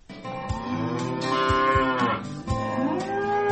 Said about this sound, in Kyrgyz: Аксуу районунун Бозчуга айылынан фермер Марат Жусупов өткөн жылы Орусиянын Хакасия жергесинен 60 баш сементаль породасындагы асыл тукум уйларды алып келген.